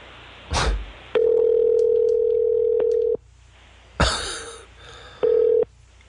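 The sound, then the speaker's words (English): An outgoing phone call rings back in two steady electronic tone pulses, the first about two seconds long and the second shorter, separated by a quiet gap, with brief noisy bursts before each. “so let's call Mike. I'll return his call.”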